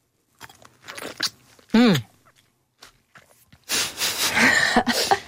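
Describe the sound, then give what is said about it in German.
A crisp, juicy bite into a plum followed by wet chewing that fills the last seconds, after a short vocal hum and a few faint mouth sounds. “Jetzt beiße ich mal hier in diese Pflaume rein.”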